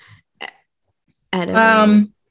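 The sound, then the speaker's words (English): A loud, low, voiced burp lasting under a second, with a coarse rumbling tone. A brief breathy sound comes shortly before it. “Oh, I just am trying not to burp.”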